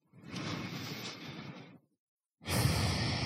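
Slow, deep breaths, airy and unvoiced. One long breath lasts well over a second and fades to silence, then a second breath starts and carries on to the end.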